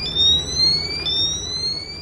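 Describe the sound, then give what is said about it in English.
A radiation detector alarm squeals during a scan of a trailer at a checkpoint, giving a continuous, piercing, high-pitched electronic whine with stacked tones that creep slightly upward, over a low rumbling background. “The alarm still squeals. The readings are getting higher.”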